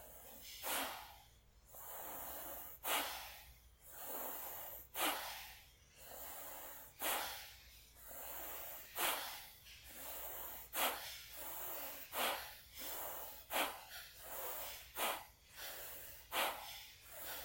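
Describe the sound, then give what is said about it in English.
Forceful breaths of a rapid breathing exercise push out in many sharp, hissing bursts. Each burst ends in a brief pause, and the rhythm tightens slightly toward the end. “Forceful. Inhale. Forceful. Keep going. Start to pick up the pace.”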